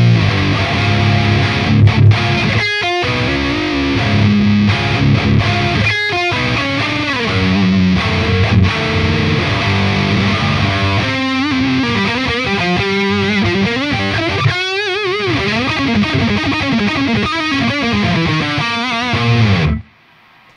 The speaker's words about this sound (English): that's what that sound is that really thick, woolly, like neck pickup sound.